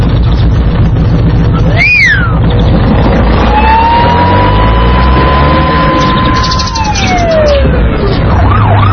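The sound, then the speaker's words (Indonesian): A police patrol car's siren wails loudly, its tone sweeping up and down in a short burst and then holding a long, steady note that falls away near the end. “Masya Allah, ada mobil polisi yang sedang patroli, teman-teman.”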